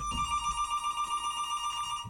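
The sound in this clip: A telephone rings with an incoming call, a steady, bright trilling tone that sounds continuously for about two seconds, with a low rumble at the start and end.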